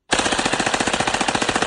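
Machine gun fire sound effect: a loud, rapid burst of evenly spaced shots that starts abruptly and continues without pause to the end.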